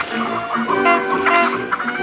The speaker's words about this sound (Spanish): Varias gallinas estorban a un coche en la calzada.